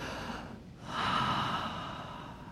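A deep breath drawn in during a church sermon, a soft, airy inhalation that swells after a short lull, then slowly eases off, faint and alone.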